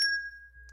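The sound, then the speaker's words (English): A single bell ding used to flag testable content, a faint, clear high tone that rings on steadily and fades out alone. “or what that sound was. It's the pimping bell.”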